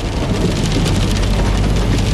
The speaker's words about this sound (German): Regen klatschte auf das Dach eines blauen Porsche Cayenne Turbo.